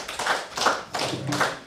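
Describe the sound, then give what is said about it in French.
Brief hand clapping as applause: a few broad, soft bursts of clapping in slow succession, alone without voices. “Bon, bah, on t'applaudit.”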